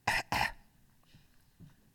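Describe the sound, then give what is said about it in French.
Two quick coughs from a patient told to cough during a doctor's examination: sharp back-to-back bursts, fairly faint, followed by quiet. “Baissez la tête. Respirez. Toussez.”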